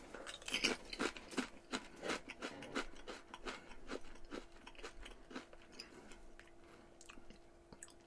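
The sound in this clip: Someone tastes food with crunchy chewing, many irregular crisp bites and munches, faint and unaccompanied by talk.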